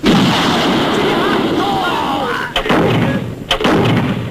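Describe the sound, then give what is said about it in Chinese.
Artillery shelling during a wartime assault by Japanese forces, heard as a continuous loud roar of fire broken by two sharp, heavy blasts in the latter half. “快从虎峡到现在，日本人已经是第四次炮击了，弟兄们伤亡不少。”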